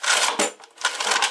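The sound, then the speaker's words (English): A manual credit card imprinter is operated, its slider dragged across the raised card numbers and paper slip, giving a harsh, loud, rasping mechanical scrape in a couple of quick strokes. “That's the sound of a manual credit card machine, also called a credit card imprinter.”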